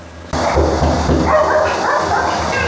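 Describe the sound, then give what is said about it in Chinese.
Many small dogs at a home sheltering rescued strays bark and yip excitedly at the door, a sudden burst of overlapping yaps that carries on without pause. “哎呦，你看看我们家这边的狗， 哇塞，这么多小狗。”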